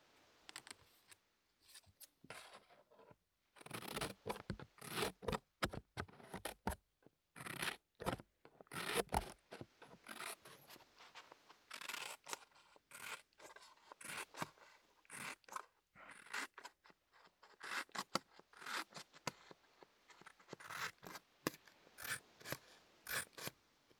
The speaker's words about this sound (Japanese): 紙を切る音だよ。